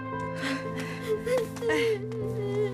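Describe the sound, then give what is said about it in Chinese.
A young child cries with whimpering, gasping sobs and a wavering voiced pitch, while an adult is comforting her. A steady layer of sustained tones runs underneath. “不哭了啊，大孩子了，不哭了啊”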